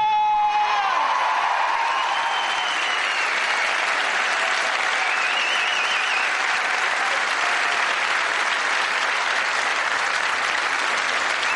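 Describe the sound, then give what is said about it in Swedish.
Loud, sustained audience applause for a comedian at a stand-up show in Skåne: a dense wash of clapping that fills the whole clip, with a few cheers and whoops near the start. “Jag vill att ni ger en stor applåd till Eslövs egen King of Comedy, Johan”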